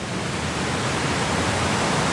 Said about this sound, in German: Das kräftige Rauschen kündigt ihn an, den Wasserfall High Force, der zu den größten Englands zählt. 21 Meter fällt das Wasser hier senkrecht in die Tiefe.